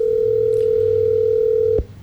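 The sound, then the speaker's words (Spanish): A steady telephone tone holds one pitch for nearly two seconds, then cuts off abruptly, as a call to someone with poor signal is retried. “No, ¿sigue timbrando? Creo que ella está como mal de señal porque la llamada intenta entrar, pero no. Vamos a intentarlo una vez más”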